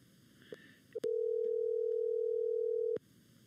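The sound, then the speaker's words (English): A telephone dial tone sounds while a call is being dialed. A couple of soft clicks lead into a steady, even hum that lasts about two seconds and then cuts off abruptly. “I'm going to dial up Scott here right now and get him on the call. Let's see if this hopefully doesn't make too much noise.”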